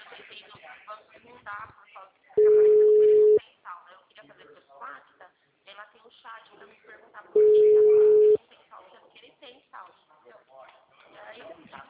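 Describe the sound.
A telephone busy tone after a dropped call sounds as two long, steady electronic beeps, each about a second, with people talking before, between and after them.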